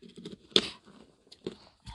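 Soft keystrokes on a computer keyboard as someone types a Google search for the Henderson Silver Knights: a few sparse, irregular quiet clicks with gaps of silence between them.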